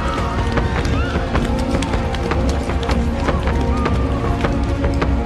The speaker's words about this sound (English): In the confusion, the citizens started running away.